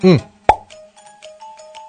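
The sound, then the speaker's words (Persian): A soda bottle opened with one sharp pop, followed by faint crackling fizz; a brief voice sound comes just before the pop. “دو نمونه دم دستیش از اون نوشابه هایی که بی وقت و وقت برای خودمون وا میکنیم.”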